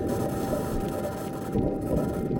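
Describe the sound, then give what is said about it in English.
Martian wind recorded on the surface of Mars by the Perseverance rover in 2021 gives a steady, dense, low rumbling hiss that holds at an even level throughout. “These are the sounds of the Martian winds and the clunk of the rover's wheels over the planet's surface.”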